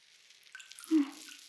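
Soft wet squelch of water soaking hair before shampooing. A faint, brief squishing sound rises near the middle over a low background hiss.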